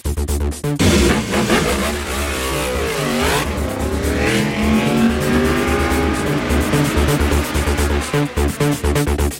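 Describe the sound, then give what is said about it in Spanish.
Formula 1 race cars at the Bahrain Grand Prix roar in with high engine revving. The pitch sweeps up and down as they accelerate, a continuous loud engine whine throughout. “Arranca la Fórmula 1 en Bahrein”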